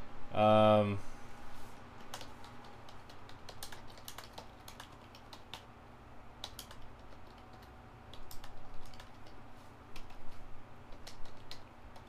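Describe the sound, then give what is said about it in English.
Typing on a computer keyboard: many quiet, irregular key clicks pattering along, with a short burst of voice at the very start. “I don't know if I can type a whole quote in.”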